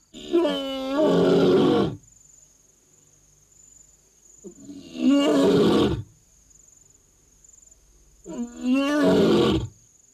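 A male lion roars while lying down, three long, deep, rasping roars with quiet pauses between them, as a steady high insect chirp carries on underneath.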